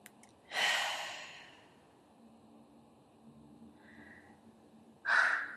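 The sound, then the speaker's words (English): A deep breath taken in during a guided breathing exercise: a breathy rush of air, a long quiet stretch, then a second breathy burst near the end, with no talking. “Okay, now take a deep breath in.”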